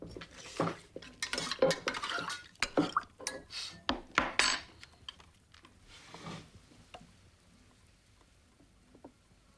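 Stirring and mixing in a bowl, with many quick clinks and knocks of a utensil against the dish, dense and lively at first, then thinning to sparse taps.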